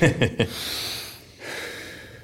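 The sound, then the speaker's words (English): A deep breath: after brief talk, a long, airy, noisy inhale follows, then a short pause and a second sustained breath. “I'm now going to take a deep breath and not pass out.”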